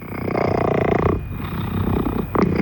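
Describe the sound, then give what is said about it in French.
A two-year-old cat that had been stuck high in a tree gives a rough, harmonic, purring growl for about a second, then breathy noise and a brief louder burst near the end. “Parce que Titi, c'est un chat, il a 2 ans”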